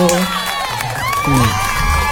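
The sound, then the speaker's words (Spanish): A studio audience cheers and whoops in a loud burst of excited shouts and high calls, with rising and falling voices overlapping throughout. “Aplausos para nuestra audiencia. Aplausos.”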